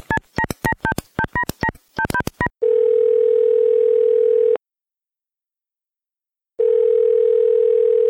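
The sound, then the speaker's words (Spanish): A telephone call being placed: a rapid run of short two-tone keypad beeps, followed by a steady, loud, buzzing call tone in two long bursts separated by a silent gap. “Llamar al papa. Oh, vamos a ver. Pero al más allá. Las llamadas al Trollcast. Bueno. Llamando a través del tiempo.”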